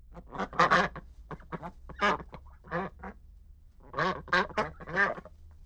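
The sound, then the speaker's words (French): Duck quacking in a run of loud, nasal, raspy calls that come in clustered bursts with short pauses between them, with no talk. “C'est le canard.”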